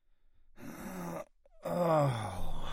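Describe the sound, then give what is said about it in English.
A man groans as he walks back to the couch from the kitchen after Thanksgiving: a short breathy vocal sound, then a longer, louder groan with falling pitch. “he finished up whatever he was doing in the kitchen and walked back to the couch with a groan, and that's when my recorder started picking him up again.”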